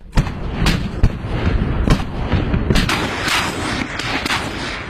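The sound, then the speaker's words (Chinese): A tank gun fires armor-piercing shells during live-fire training: several sharp, loud blasts ring out over a continuous, dense roar of noise. “炮弹应声出膛，目标点瞬间被摧毁。”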